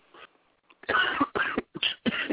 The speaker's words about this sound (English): I could tell from the cough. That's how I know.